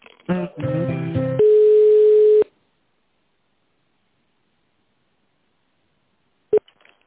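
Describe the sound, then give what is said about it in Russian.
Telephone line tones sound as a call is transferred: a rapid run of beeps, then a steady single tone for about a second, then silence broken by one short click-like beep. “Я сейчас вас переведу на Олесю Алексеевну.”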